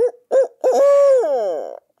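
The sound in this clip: Imitated owl hoot call used by a turkey hunter to provoke a gobble: two short hoots, then a longer drawn-out hoot that trails off lower at the end, loud and alone.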